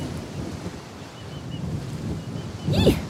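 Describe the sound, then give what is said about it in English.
Strong wind buffets an open coast with no land to shelter it, a steady low roaring rush with a stronger gust swelling near the end. “And without any other land to protect me from the wind, I'm nearly getting blown off my feet.”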